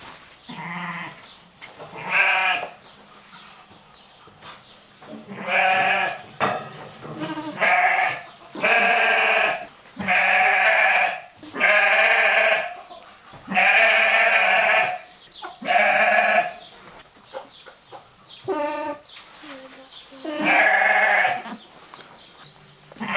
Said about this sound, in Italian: la capra con l'agnellino.